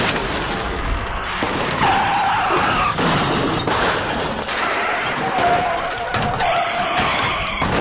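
Car tyres skid during a crash, giving repeated high squealing screeches over a dense, continuous roar of noise.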